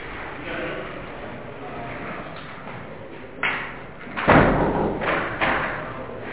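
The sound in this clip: A door is pushed shut, giving a couple of dull thumps that stand out over a steady background hiss.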